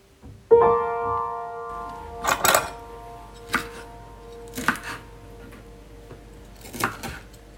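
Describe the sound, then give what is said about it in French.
A knife chops food for a dish: a few sharp, irregular knocks spaced over several seconds, following a brief ringing clink at the start. “Maman elle coupe. Et toi tu mets dans le plat.”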